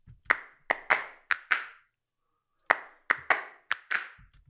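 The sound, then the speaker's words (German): Dry finger snaps used as a sample in a music production, ten sharp crisp snaps with no added reverb, arranged in two groups of five separated by a short silent pause. “Und am Schluss haben wir noch die Snaps. So klingen die trocken.”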